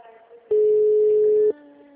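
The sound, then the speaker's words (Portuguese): A telephone call rings before being forwarded to voicemail: a single steady electronic ringback tone holds at one even pitch for about a second, then cuts off abruptly. “Alô? Sua chamada está sendo encaminhada para a caixa postal e estará sujeita a.”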